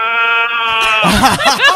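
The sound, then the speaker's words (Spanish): A voice imitating a goat's bleat: a long, steady, nasal cry that breaks into loud, choppy, quavering bursts. “Mira, acá tengo una cabra. A ver, cabra, saluda.”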